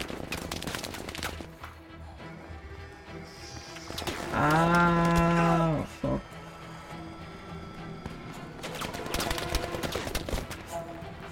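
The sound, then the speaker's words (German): Tank in the video game Battlefield V, heard as a loud droning engine-like tone with a steady pitch for about a second and a half, set among sharp bursts of gunfire and busy battlefield noise. “Oh ja, der Panzer, der will's aber wissen, ja.”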